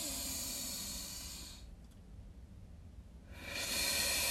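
Deep breathing as a breath-holding exercise: a long, hissing rush of air is drawn in, then near silence while the breath is held, followed by another strong, airy rush of breath.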